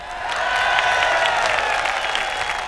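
A live rock concert audience applauds and cheers as the bass player is introduced: dense, continuous clapping with crowd noise, steady in loudness for the whole stretch.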